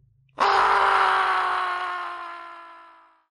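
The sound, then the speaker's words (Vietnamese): A man screams in pain after being shot in the thigh in a quiet warehouse. The single loud, sustained cry starts abruptly and slowly fades over about three seconds. “Tiếng kêu thê thảm như heo bị chọc tiết của Hậu Mãnh lúc này vang vọng khắp cả khu nhà kho tĩnh mịch.”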